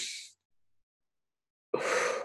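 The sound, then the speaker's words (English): A breathing exercise: a brief inhale, then a held silent pause, then a longer, forceful exhale. The breaths are clear and alone, with nothing else heard. “So the breath is an inhale, a hold, and then an exhale. So it's like,”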